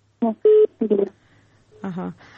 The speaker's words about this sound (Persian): فکر میکنم مشکل تکنیکی بود، تماسشان قطع شد.